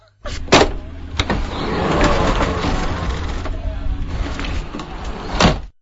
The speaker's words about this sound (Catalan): tanqui'm la porta de l'helicòpter, que vull saber com sona la porta d'un helicòpter. I sona així.